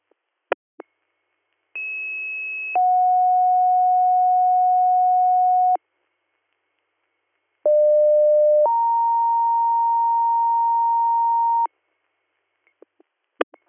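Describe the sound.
Two-tone sequential pager alert tones from an emergency dispatch radio, sent as a second page for a one-car motor vehicle accident. There are two steady two-tone pages, each a short tone then a longer one held for several seconds, with faint clicks at the start and end.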